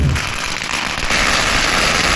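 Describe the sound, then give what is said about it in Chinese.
Firecrackers set off by villagers to welcome a dragon dance troupe on its New Year village procession: a loud, dense, continuous crackle of rapid pops lasting throughout. “当李氏龙灯将欢庆分享给村民时，其他不同姓氏的村民则纷纷摆香案、燃放鞭炮、接福纳龙，以隆重的形式迎接他们”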